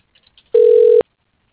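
A telephone line rings while a call is transferred to voicemail: a few faint clicks, then a single steady electronic ring tone that lasts about half a second and stops abruptly.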